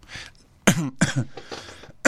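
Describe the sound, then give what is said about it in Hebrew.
Coughing: a few loud, harsh bursts in quick succession with short pauses between them, with no talk over them. “מותר להשתעל בפודקאסט, ברדיו?”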